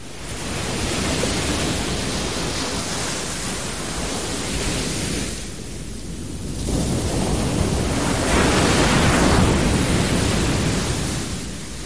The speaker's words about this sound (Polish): Dziś zapraszam Państwa na plażę, ale przede wszystkim zapraszam Państwa w miejsce, gdzie pięknie słychać rzeczone morze.